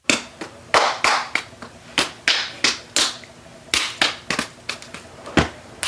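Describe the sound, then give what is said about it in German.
Hands slap together again and again in a handshake, making many sharp, loud claps in a fairly steady rhythm that lasts several seconds. “Handschlag.”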